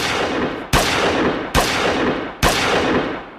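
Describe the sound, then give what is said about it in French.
Colt .45 pistol shots fired through the glass panel of an elevator: loud, sharp bangs at steady intervals, three plainly marked, each followed by a long fading ring. “L'un d'eux, Colt 45 à la main, tire à quatre reprises à travers la vitre du panneau gauche de l'ascenseur.”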